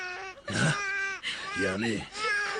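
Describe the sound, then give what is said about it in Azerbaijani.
Child crying in a family drama scene: a few high, wavering sobbing wails in separate bursts, loud and strained, breaking off between cries. “Ağlama balam sen ağlama.”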